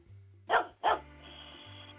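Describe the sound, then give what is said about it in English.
Two sharp dog barks in quick succession, loud and clipped, followed by a faint low hum in an otherwise quiet stretch. “it's hard to get him to not bark is the thing”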